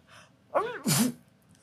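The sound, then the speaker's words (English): A person does a fake sneeze, a human voice imitating the sound: a quick, breathy intake rising into a loud, sharp 'choo' burst, heard alone and fairly faint. “Can you do a convincing fake sneeze?”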